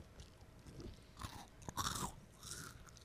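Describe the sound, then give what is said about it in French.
Someone takes a crunchy bite of food: a few faint crisp crunches, then soft chewing, quiet throughout and with no talk. “je vais quand même prendre une petite bouchée.”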